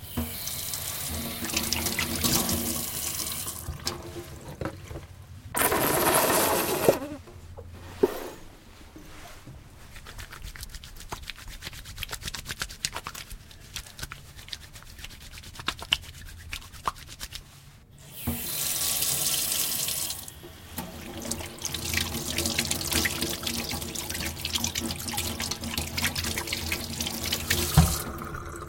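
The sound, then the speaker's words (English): Someone washes their hands under a running tap: a steady splashing stream of water with shifting intensity, broken by brief pauses and bursts as the hands move through the flow. “That's the sound of somebody washing their hands.”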